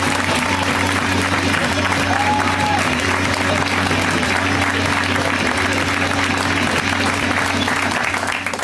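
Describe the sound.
An audience applauds a performer being welcomed on stage. Steady, dense clapping fills the whole stretch at an even, loud level, with a faint low hum beneath it.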